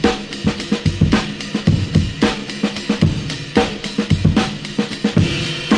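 Amen break drum loop sample: a fast, busy breakbeat of punchy kick and snare hits with bright cymbal wash, repeating in a steady, driving, syncopated rhythm, loud and with no voices.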